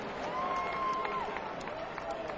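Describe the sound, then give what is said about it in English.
Audience applause at a live event, a steady wash of clapping with a sustained whistle-like tone riding over it. “Big round, another round of applause for Matt.”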